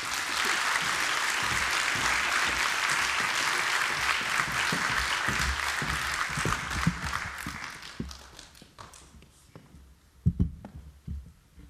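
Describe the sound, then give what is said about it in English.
Audience applause welcoming two speakers onto a stage: dense, steady clapping that holds for about eight seconds, then thins and fades, leaving a few scattered claps at the end. “Please give a very, very warm welcome to Imre Hutul and Susan Cahill.”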